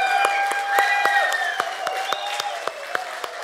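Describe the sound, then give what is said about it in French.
An audience claps steadily in a standing ovation for the women, with many crisp hand claps and some voices cheering over the applause. “un standing ovation aux femmes, puis on va leur donner une main d'appréciation très fort.”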